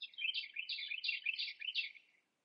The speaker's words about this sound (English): And along the bank, the birds are singing